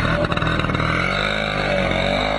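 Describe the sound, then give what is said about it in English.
Engines of about two dozen motor scooters rev together in a hotel parking lot in Burlington, Ontario, at the start line of a Great Lakes ride, forming a dense, steady, loud buzzing drone with no clear breaks. “two dozen scooters rev their engines in a hotel parking lot in Burlington, Ontario.”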